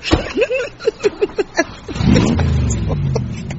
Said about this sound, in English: That's £2 worth of petrol just to rev it up.